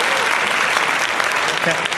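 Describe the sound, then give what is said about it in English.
Applause for a birthday, a dense, steady clatter of many hands clapping that holds at an even level throughout without a pause. “a long applause.”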